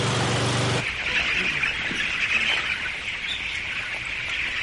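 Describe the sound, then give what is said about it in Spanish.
A poultry shed full of hens gives off a dense, continuous chorus of clucking and chirping that holds steady and fairly loud throughout. “Es una nave llena de gallinas.”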